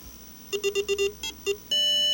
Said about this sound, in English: Does your computer sound like this?